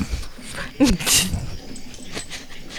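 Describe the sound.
A dog whimpers and lets out short, high yips and whines while people talk over it.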